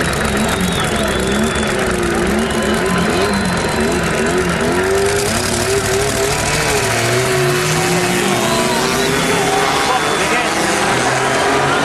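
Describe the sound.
A racing car engine roars as the car launches off the start in a timed sprint run, the clutch dropped hard. The engine is loud and continuous, with the pitch climbing as it accelerates.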